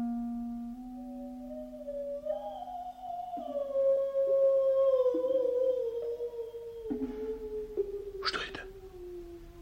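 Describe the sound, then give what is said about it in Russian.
A dog howls in one long, drawn-out, mournful tone that shifts in steps and wavers across several seconds. The howl is mid-pitched and fairly faint, ending with a brief, harsher burst. “Почему так воет Тара? Надо посмотреть.”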